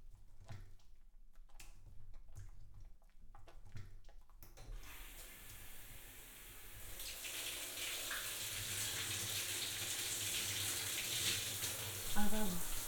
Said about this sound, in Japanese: 流していきます。動かないでください。泡が残ってはいけません。